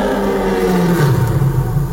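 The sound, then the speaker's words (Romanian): A caged lion gives a deep, loud roar, a continuous rough growl that rumbles low and dense for about two seconds with no break and no voices. “dar leul nu doarme, se preface.”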